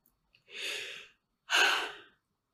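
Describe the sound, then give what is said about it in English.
One deep breath in and out: a soft, airy inhale followed after a short pause by a louder, breathier exhale, two distinct breaths alone in near silence. “I want you to now close your eyes. I want you to take a deep breath.”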